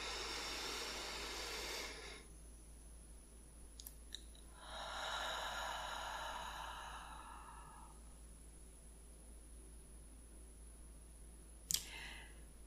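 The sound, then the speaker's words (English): A person takes a slow, deep breath in a quiet ASMR setting, two long, soft, airy breath sounds separated by a pause, with a couple of faint light clicks. “Let me just take a deep breath. Feel free to do it with me if you want.”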